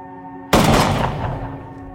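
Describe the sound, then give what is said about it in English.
A single loud gunshot fired at a water bottle target out on open plains: one sharp, explosive crack that decays into a long, rumbling tail, preceded by a faint steady hum. “Later on the plains, she positions herself 20 yards from a water bottle and aims her gun.”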